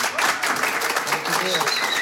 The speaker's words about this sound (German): liebstes Publikum, empfangt ihn mit einem fetten Applaus, bitte.